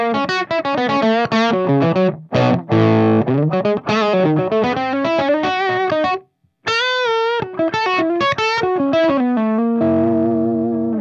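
Rose-gold 335 electric guitar played through distortion with the reverb switched off: a busy run of gritty notes and chords, then a brief silence before more notes and a sustained closing chord.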